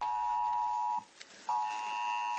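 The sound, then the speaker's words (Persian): A mobile phone emergency alert tone warns of storms. A steady, piercing electronic tone sounds, breaks off briefly in the middle, then resumes at the same pitch. “این زنگ هشدار برای طوفان و برف و باران از طریق گوشی‌های همراه جان انسان‌ها را نجات می‌دهد.”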